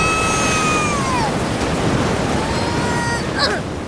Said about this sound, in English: the tide's coming in. Uh-oh. Whoa!